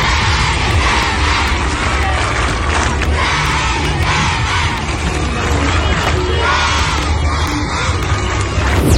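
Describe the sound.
Schoolchildren at Leskovec primary school cheer and shout to welcome a visitor, a loud, dense roar of high young voices that keeps going without a break from start to finish.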